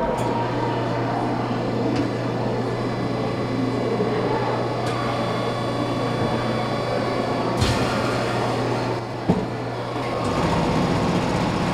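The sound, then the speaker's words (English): Steady mechanical rumbling and hum from a Mold-A-Rama vending machine at a museum as it molds a warm yellow plastic chick, with a couple of brief clunks near the end. “Lots of rumbling. And then eventually out popped a warm yellow plastic chick.”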